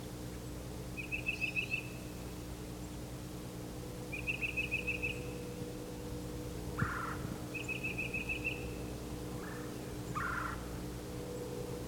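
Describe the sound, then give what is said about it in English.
Northern parula warbler singing: three short, high buzzy trills spaced a few seconds apart, with two brief lower calls between them, over a faint steady low hum. “there's a parula warbler.”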